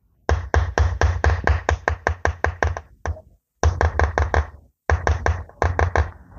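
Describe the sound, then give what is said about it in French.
Sharp, bright metallic taps from a chasing hammer striking a chisel into bronze, fired in quick, even runs of many blows, broken by a few short pauses. “Et la ciselure, ça, on cisèle au son du marteau.”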